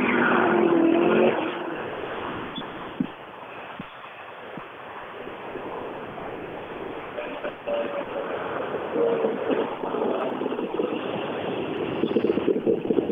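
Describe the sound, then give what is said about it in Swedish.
Race cars roar past during a motor competition, their engines forming a steady, loud stream of noise with no clear break between vehicles. One car is strongest right at the start. “nu släpper det på bilar och nu, nu står det säkert en strid ström med bilar där borta. I, så att nu kommer det att komma bil hela tiden.”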